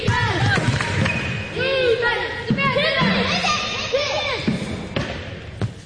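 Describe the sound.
A basketball is dribbled during a girls' team warm-up game in a gym, where one 11-year-old player has three dribbles. Bouncing thuds mix with high sneaker squeaks and players' chatter.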